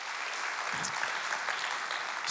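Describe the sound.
A church audience applauds to welcome people from several campuses, a dense, even patter of clapping at a fairly faint level throughout.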